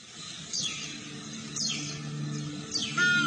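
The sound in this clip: Crested ibis calling: three brief, harsh descending cries spaced about a second apart over a steady background hum.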